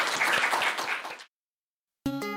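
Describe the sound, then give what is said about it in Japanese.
Audience applause as an onstage talk closes, a brief burst of clapping that fades out quickly into silence before music begins. “はい、大きな拍手でお送りください。”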